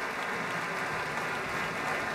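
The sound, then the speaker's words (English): Sustained applause from a concert audience after a symphony orchestra and chorale performance, a steady even wash of many hands clapping throughout with no voices. “More applause for the Pacific Chorale, Alexander Shelley, and the Pacific Symphony.”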